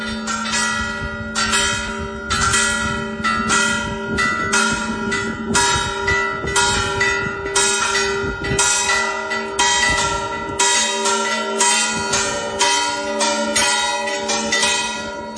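Church bells ring out across the city of Pontevedra after white smoke rises in Rome for a new pope, many loud overlapping strikes pealing continuously in a bright, resonant clangour.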